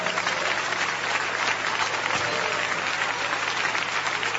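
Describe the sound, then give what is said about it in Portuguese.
Clapping in praise fills a Pentecostal church service as the audience keeps up an even, unbroken wash of many hands at a moderate, steady volume throughout. “Pode louvar a Deus com as palmas.”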